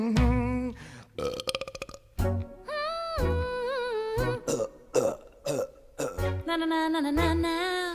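Loud, exaggerated burps from a stage musical scene where two characters trade bodily noises: a long run of bursts separated by short gaps, many drawn out into tonal, wavering belches with shifting pitch, with no talking.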